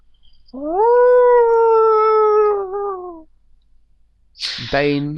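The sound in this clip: A long howl rings out at night, a drawn-out, steady-pitched cry lasting almost three seconds that dips slightly at its end, followed after a pause by the sharp, high onset of a second howl.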